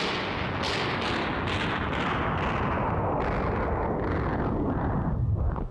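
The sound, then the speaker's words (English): A staged war-scene gunfire sound effect: a dense, continuous roar of rapid shots and booming blasts that stays loud throughout and cuts off abruptly at the end. “Stop all that dreadful shooting, old man. All right, wait a minute. Let me kill the sound effect here.”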